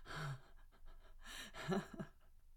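Heavy, ragged panting from a woman, with breathy exhales broken by a few short voiced gasps. The breathing is faint and uneven.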